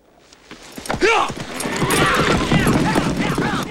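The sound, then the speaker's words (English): Hooves of an outlaw gang's horses clatter as the riders turn and ride off, a loud, dense clip-clop that builds after a quiet start and holds steady to the end. “Mad Dog and his gang about turn and ride off.”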